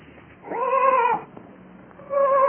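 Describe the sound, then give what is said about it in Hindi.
A sheep bleats, a lost animal caught among thorny bushes in a forest. Two drawn-out, wavering bleats stand alone, the first long and steady, the second starting near the end and cut off. “तब गड़रिये ने पहचाना कि ये उसी की भेड़ की आवाज है।”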